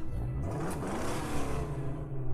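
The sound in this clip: A car drives off, its engine giving a steady mid-pitched rumble and whir that holds at an even loudness throughout, with no voices over it.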